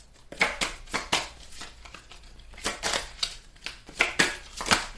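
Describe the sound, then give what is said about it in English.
Playing cards being put back into the deck: crisp, papery snaps and rustles in two quick clusters split by a short pause, each burst sharp and fairly faint. “Now, I'm going to put these back in the deck.”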